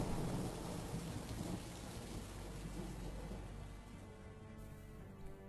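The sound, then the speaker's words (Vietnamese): Thunder rolls in low, deep rumbles over a dense, heavy downpour of rain, the hiss of the rain steady and the rumbling slowly easing off, with no voices. “ngoài trời tiếng sấm nổ đi đùng, từng tia chớp sáng lòa rực lên, rồi sau đó là một màn mưa dày đặc chút xuống”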